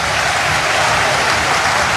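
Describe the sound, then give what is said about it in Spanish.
A football stadium crowd at La Bombonera applauding a player during a match, a dense, unbroken roar of clapping and crowd noise that holds steady throughout. “Se viene abajo la bombonera aplaudiendo al Changuito”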